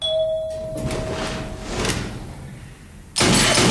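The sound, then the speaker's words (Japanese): An elevator arrives: a steady electronic chime holds for over a second, then soft whooshing rumbles follow, and a sudden loud burst of broad noise cuts in near the end. “ロイドは近づいてくるエレベーターに銃口を向けた。”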